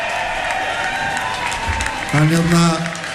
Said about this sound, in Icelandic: að gefa hann góða klapp.